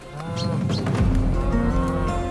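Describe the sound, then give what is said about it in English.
Cows mooing as they are herded through a field, with deep, loud, drawn-out lowing that carries on steadily to the end. “Come on, cows. Steady. Steady. Good girls. Yeah, they're going through. Good girls, come on.”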